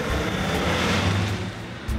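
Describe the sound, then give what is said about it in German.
A car driving fast gives off a steady, loud roar of engine and road noise that holds nearly level from start to finish, with no voices over it. “Kannst du bitte etwas langsamer fahren?”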